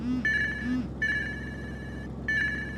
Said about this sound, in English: Wait. Who's calling me on Signal?